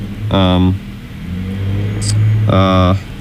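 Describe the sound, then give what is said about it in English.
A truck driving past outside at night produces a low engine rumble that swells in the middle and then eases, while a voice is briefly heard at the start and near the end. “It's a truck out at this hour.”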